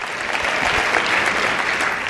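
A church audience applauds during a sermon: a steady wash of many hands clapping, moderately loud, with no speech over it.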